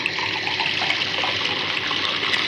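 Water poured into a glass for a drink mixed with lemon: a steady, continuous splashing gush that runs evenly through the whole clip without pauses, with no voices.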